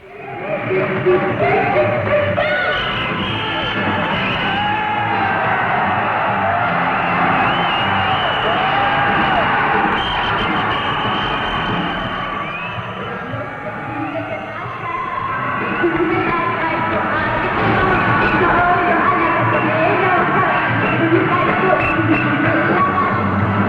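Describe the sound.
Crowd cheering fills a concert at the Kuramae Kokugikan arena: a dense, continuous roar of voices that sags slightly midway and then swells back to full strength.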